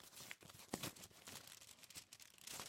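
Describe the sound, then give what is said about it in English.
An envelope from the Open University is torn open, giving quiet ripping and crinkling paper rustles in uneven bursts for under three seconds. “There's one from the Open University for you. I thought I'd get an email. This can't be good. They never write. Well, you better open it and find out.”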